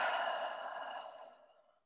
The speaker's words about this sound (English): Taking a nice, deep, and mindful breath in and out.